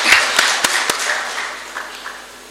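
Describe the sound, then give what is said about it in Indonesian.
An audience applauds at a DPRD council meeting in Jombang Regency. The clapping starts fairly strong with a few sharp, distinct claps, then gradually thins and fades toward the end. “Kita kasih aplaus.”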